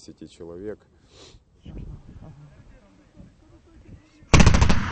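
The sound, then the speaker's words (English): A Ukrainian soldier's machine gun fires warning shots toward rebel positions. Voices talk quietly at first, then a loud, rapid burst of shots erupts near the end. “Warning shots, says a Ukrainian soldier after suddenly firing his machine gun towards rebel positions in front of a group of journalists.”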